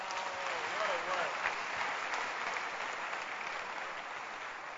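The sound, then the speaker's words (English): A church audience clapping hands in a dense, sustained round of applause, with voices calling out over it early on and the clapping easing slightly toward the end. “Pastors, please sit down. Clap your hands for my church.”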